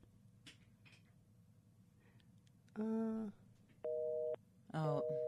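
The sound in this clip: Telephone busy tone after a caller's line has dropped: three steady, loud electronic tone bursts with short silent gaps between them, following a few seconds of faint background noise.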